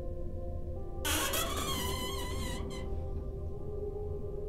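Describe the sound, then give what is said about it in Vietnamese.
A door creaks as it is pushed open, a drawn-out high squeal with wavering harmonics that starts abruptly and lasts under two seconds over a steady low hum. “Đưa tay đẩy nhẹ một cái, cánh cửa rít lên kèn kẹt, nghe âm thanh đến rợn người.”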